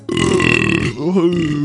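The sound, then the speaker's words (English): A single loud, drawn-out voiced burp lasts just over a second, with a throaty buzzing tone that wavers and dips near the end. “I'm gonna burp.”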